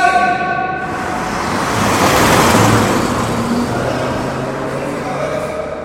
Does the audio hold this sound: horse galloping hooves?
no